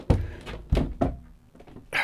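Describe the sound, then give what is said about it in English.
A front room door sagging on its hinges is pushed shut with a few dull thuds and knocks close together, followed by quieter rattling and a final shuffle. “Just going to shut this door whilst”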